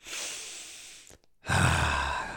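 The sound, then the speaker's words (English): Two long breaths split by a short silent pause: a deep breath taken slowly, then a fuller, heavier breath let out, both heard alone with no talk. “when you see somebody that's really attractive, take a deep breath.”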